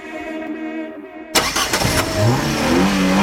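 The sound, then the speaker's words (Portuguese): A car engine starts and accelerates on high-performance gasoline, breaking in loudly after a sustained musical tone cuts off, then revving through a few quick bursts before settling into a strong, rising engine drone. “Você sente a diferença quando acelera com o Shell V-Power Racing.”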